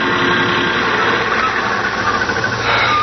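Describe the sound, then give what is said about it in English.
A car engine rumbles loudly and steadily as the vehicle approaches a hitchhiker on a highway, with no voices heard. “Out to the main highway, pants pulled low, thumb up in the air. Ah, here comes my ride. He's got to stop.”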